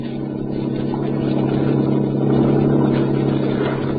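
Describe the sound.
A yacht engine from a recorded sound-effect disc, a steady low droning hum with a rough, band-limited tone that swells slightly in the middle and keeps going without a break.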